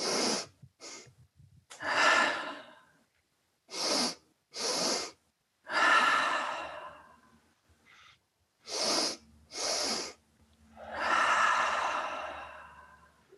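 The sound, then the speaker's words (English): A person demonstrating a breathing technique, two quick sharp inhales followed by a long, relaxed exhale, repeated over several cycles with short silences between; the breaths are fairly soft and no one talks. “a new one, which is a double inhale followed by a long, relaxed exhale. So it's like this.”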